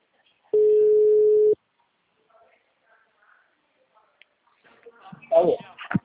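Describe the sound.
A single steady electronic ringback tone on a telephone line, lasting about a second before falling silent; a voice then begins speaking as the call is answered.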